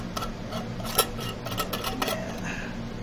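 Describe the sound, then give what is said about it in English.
Opening a giant jar of peanut butter makes a scatter of small clicks and light clinks, with one sharper click partway through, heard alone over a steady low hum. “This is me now opening the jar of peanut butter.”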